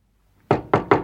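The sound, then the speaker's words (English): Three firm knocks on a door in quick succession, each a dull, resonant thud, with no voices. “One day, using all my courage, I knocked at the door.”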